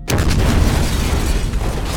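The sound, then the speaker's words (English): Turbolaser fire from a space cruiser exploding against a ship: a sudden loud boom that carries on as a dense, sustained rumbling roar. “Cruiser's turbos are firing, Skek said over the speaker”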